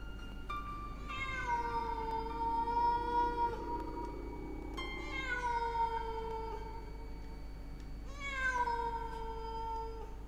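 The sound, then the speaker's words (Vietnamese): A black cat cries in the night with three long, drawn-out wailing meows. Each starts high and sags lower, spaced several seconds apart over a steady low hum. “Đâu đó trong đêm, tiếng con mèo đen lại kêu lên đến não lòng.”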